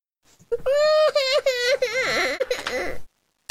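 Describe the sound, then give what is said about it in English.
A fussy baby boy cries in a wavering, high-pitched wail that lasts about two and a half seconds, with whimpering rises and dips in pitch and loud, sustained sobs. “I have a very fussy boy right here.”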